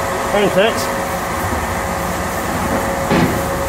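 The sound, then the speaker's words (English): Synchronized motors driving a tunnel boring machine's cutter head make a steady, loud mechanical roar and hum with a constant tone running through it. Brief voices cut in over the top. “All these motors are moving the cutter head. They are synchronized and they move at the same time.”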